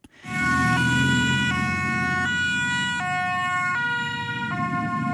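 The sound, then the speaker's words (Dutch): A Dutch ambulance siren during a hot-weather Ironman race in Hoorn: a loud two-tone wail alternating steadily between a high and a lower note, sounding over a low rumble of vehicle noise. “Ambulances reden vanmiddag af en aan in Horen.”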